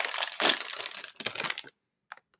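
Crinkling plastic as a packet of stale pork scratchings is opened, a busy, loud rustle lasting over a second, then a brief pause and a couple of faint clicks.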